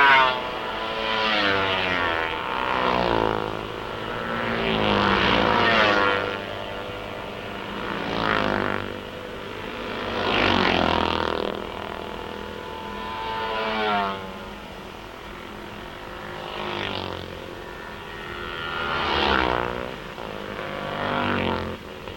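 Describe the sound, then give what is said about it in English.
Racing motorcycles, a Yamaha leading, pass one after another during the first lap of a road race. Their high, whining engines swell and fade many times in a continuous stream, with no talk over them. “Now you can listen to the riders as they pass, because you obviously can't hear me.”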